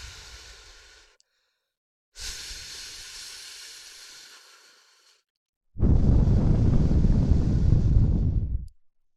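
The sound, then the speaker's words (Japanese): Breath blown into the ear canal in three long, airy hisses separated by short silences. The third breath is the loudest and fullest, with a heavy low rush. “じゃあ仕上げに耳の穴の中に息吹きかけるよ。”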